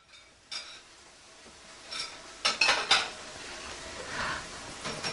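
Cutlery and dishes clink during a meal of biryani: a few light, sharp metallic taps bunched together midway, over a faint, steady background. No one speaks.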